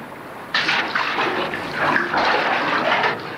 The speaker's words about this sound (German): Wasser. Endlich haben wir Wasser.